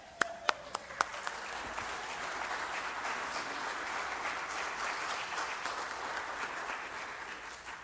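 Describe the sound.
Audience applause greeting a speaker. A few sharp, isolated claps open it, then the clapping swells into a steady, even patter that carries on evenly to the end.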